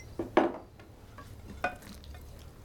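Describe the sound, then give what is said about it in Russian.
Faint clinks and soft scrapes as a mother serves food onto her daughter's plate at a table at night, a few brief knocks spread over near-quiet background. “Мать кладет еду на тарелку Халы.”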